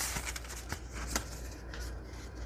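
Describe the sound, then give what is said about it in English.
Paper crinkling and rustling as a book page is folded, with a few sharp crackles early on easing into softer, continuous rustling. The sound is faint and there is no talk. “Actually, let's fold it up first so we know where we're at. One fold.”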